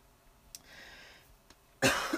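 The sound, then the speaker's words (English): A single harsh, dry cough from someone with a dry throat bursts out loudly near the end, following a long quiet stretch with only faint background sound. “Excuse me, my throat's dry.”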